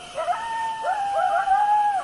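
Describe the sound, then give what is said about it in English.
Coyotes howl in the desert, giving long, wavering tonal cries that glide up and down in pitch and overlap one another in a continuous, moderately loud chorus with no breaks. “Deserts that might appear barren at first teem with those toads and many other sights and sounds. There are coyotes,”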